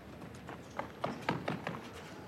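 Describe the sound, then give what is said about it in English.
The heavy footsteps of ball girls on a tennis court come as a series of dull, thudding steps in an uneven rhythm, fairly faint over a steady background hiss. “Very heavy footsteps from the ball girls today. They've just turned up the effects”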